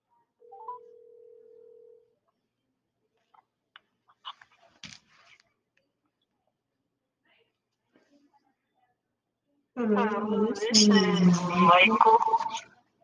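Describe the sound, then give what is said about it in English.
A telephone dialing a call: a steady mid-pitched tone lasts a couple of seconds, then faint scattered beeps and clicks follow over silence before a voice begins talking. “Now, we have a few special callers. Let's call them.”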